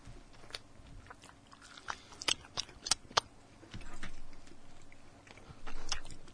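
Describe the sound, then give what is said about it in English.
Quiet crunchy bites into an espresso-flavoured Snickers bar, several sharp crackling snaps followed by softer, muffled chewing. “Now, I haven't had a Snickers in a while. That's me getting excited for a Snickers. All right. Mm. Nougaty.”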